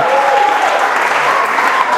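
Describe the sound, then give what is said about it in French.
A church audience applauds in a dense, steady wash of clapping that stays loud and even from start to finish. “Acclame Dieu pour ta vie.”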